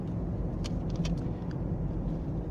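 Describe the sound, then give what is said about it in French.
A car driving at 50 km/h gives a steady, even rumble of engine and road noise with no pauses, with a few faint high clicks over it. “je roule à 50. Je peux même rouler moins vite si vous voulez”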